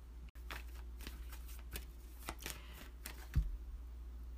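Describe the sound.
Tarot cards are shuffled by hand in a quiet series of soft riffling and slapping bursts, with a slightly louder snap near the end.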